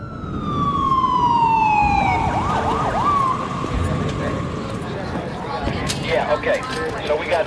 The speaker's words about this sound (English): Up on the roof, the water tank looms out of the darkness. Emergency vehicles congregate.